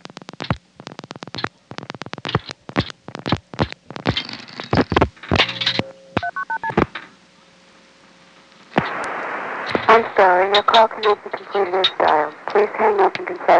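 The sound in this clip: Telephone touch-tone dialing: a run of sharp clicks, then several short beeping tones and a faint steady tone. A voice then speaks over the line.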